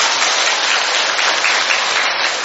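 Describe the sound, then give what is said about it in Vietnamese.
Loud, dense applause from a church audience at a Catholic Mass, continuous clapping that fills the whole clip at an even level without a break. “Một tràng pháo tay thật lớn thưa anh chị em.”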